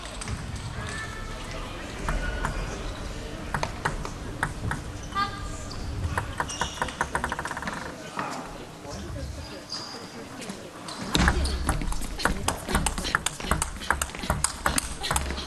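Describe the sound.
A table tennis ball is struck back and forth in a long multi-shot rally, making many quick, sharp clicks in an irregular rhythm, with voices underneath.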